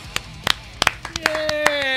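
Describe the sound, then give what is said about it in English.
Scattered hand claps from a comedy show audience welcoming a comedian on stage: several separate, crisp claps that grow denser toward the end. “Put your hands together for Stephen Kramer Glickman.”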